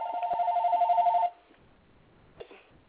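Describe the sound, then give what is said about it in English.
A telephone rings with a warbling electronic trill that lasts just over a second and then cuts off, followed by quiet and a faint click. “And my other phone is ringing.”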